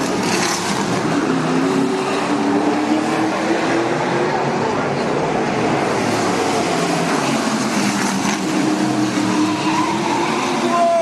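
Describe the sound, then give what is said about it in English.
Racing car engines droning loudly as closely bunched cars go through a corner. The steady, continuous roar holds at an even level for the whole stretch. “Some of them are very, very close to each other as they go through this corner.”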